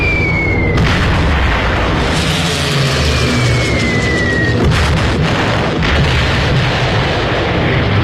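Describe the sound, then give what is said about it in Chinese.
Dense, continuous roar of a wartime air strike by Stuka dive bombers, with heavy booming explosions and rumbling blasts throughout, overlaid by descending whistling tones of diving aircraft, loud and unbroken. “德国空军派出斯图卡轰炸机发动空中打击，”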